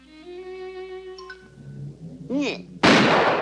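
A cartoon gunshot blast goes off as a loud, sudden burst at the end, after a stretch of held tonal sounds and a few quick wavering tones.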